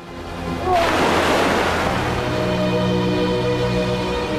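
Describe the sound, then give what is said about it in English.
Ocean waves wash around a boat: a sudden rushing surge of water breaks in, then settles into a steady, loud churning roar. “bobs up and down in the waves by the boat.”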